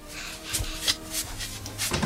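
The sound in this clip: A door being opened at home by someone arriving with their hands full: a few soft knocks and rubbing scrapes, then a low thud near the end, all fairly quiet.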